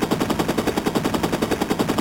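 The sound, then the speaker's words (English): Machine gun fire rattles in a rapid, even stream of many shots, sustained without a break from start to finish. “This agent just threw what appears to have been a grenade and fired a machine gun.”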